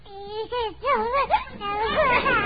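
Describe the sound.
A baby lying in a crib whimpers in a few wavering, high-pitched bursts that slide up and down in pitch.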